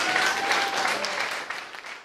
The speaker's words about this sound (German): Und der Applaus gilt vielleicht auch ein bisschen für Patrick Mühlhauser.